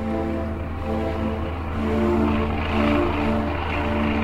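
Steady propeller-engine drone of a single-engine airplane on a 1927 transatlantic flight over the North Atlantic in clear, calm weather: a continuous tonal hum with gentle swells in loudness and no voices.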